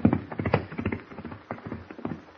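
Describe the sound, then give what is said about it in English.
Horses' hooves clip-clop as two riders ride off toward a ranch, with many steady, rhythmic hoofbeats that stay fairly loud throughout. “As Kent and Jimmy ride back to the ranch, Abner Cheney”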